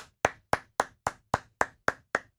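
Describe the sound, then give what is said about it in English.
Hand clapping: nine sharp, crisp claps, evenly spaced at a steady pace of roughly four per second. No other sound is heard. “Please clap.”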